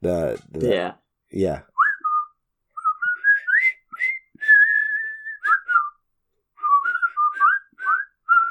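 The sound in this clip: A whistled march tune, as from a brigade of worn, half-starved prisoner-of-war soldiers marching into camp, comes in clear, bright phrases with short breaks after a brief voice at the start.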